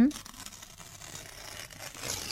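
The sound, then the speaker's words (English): Scratching and rustling of paper as a coconut, chili, turmeric and shrimp paste recipe is written out by hand, a soft, steady scratchy texture with brief stroke-like accents throughout. “Let me write them down on this paper.”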